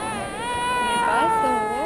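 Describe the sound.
A fussy baby whimpers and cries while waiting in line for Santa Claus at a mall, a sustained, wavering high-pitched wail.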